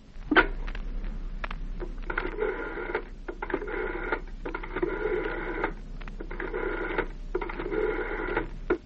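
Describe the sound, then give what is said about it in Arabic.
A telephone being picked up and dialled at home: a few clicks and handling knocks at first, then several evenly spaced buzzing tone bursts, each lasting about a second, with short gaps between them. “طب اديني التليفون”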